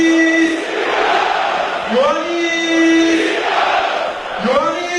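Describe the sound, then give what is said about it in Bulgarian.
Football stadium crowd roaring after a second goal, loud sustained cheering with tonal shouts and chants rising and swelling across the stands for the whole stretch. “Йоанис Питас, за радост на публиката, втори гол на Питас.”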